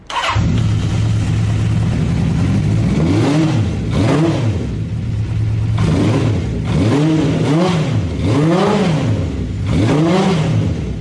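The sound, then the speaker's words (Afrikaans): A Honda CB650 motorcycle engine runs with a steady rumbling idle, then revs up and back down several times, each rise and fall of pitch clearly audible, with no talking over it. “en ons kan sommer nou luister na hoe klink hierdie CB650.”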